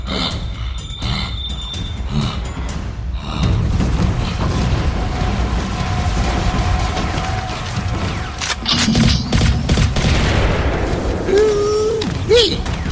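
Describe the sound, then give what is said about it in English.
Gunfire from newfangled guns in a fight on Mars: dense, loud bursts of sharp shots and heavy booms run throughout, mixed with mechanical clatter and possible voices. “I like these newfangled guns.”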